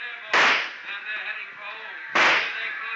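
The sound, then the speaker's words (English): Two sharp gunshots ring out during a rooftop shootout in a radio drama. Each is a loud crack with a short decaying tail, about two seconds apart. “Okay, Corbett, you've had it. I've been counting your shots.”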